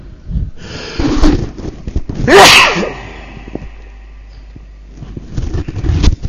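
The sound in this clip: A single loud, explosive sneeze bursts out midway, set among quieter breathy and rustling noises before and after it.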